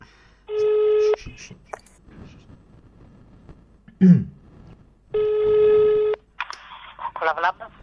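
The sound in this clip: A telephone ringback tone from an outgoing call: two long buzzing rings separated by a pause, with short voice-like sounds between and after them.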